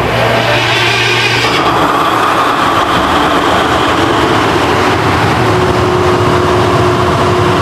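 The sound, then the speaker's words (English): A generator kicks in and keeps running, a loud, steady engine drone that shifts in tone early on and then settles into a constant, unbroken hum. “What was that noise? The generator finally kicked in.”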